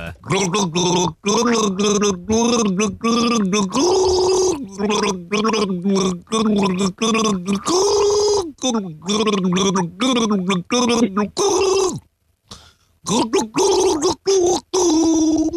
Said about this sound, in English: I'm gargling a song from an artist who is a daddy.